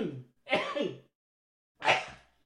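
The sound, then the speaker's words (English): A human sneeze: a short breathy burst heard alone against silence, with no talking around it. “there's that sneeze now I was waiting on. That's not the best time for it to happen, but nonetheless, at least we got it out.”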